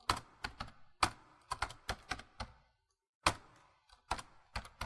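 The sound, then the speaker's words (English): Computer keyboard keys pressed in irregular bursts of crisp clicks, with a short pause partway through before the rapid tapping resumes. No one talks. “Press enter. Where? There. Nothing is happening. That's because you are pressing the shift button, Ma.”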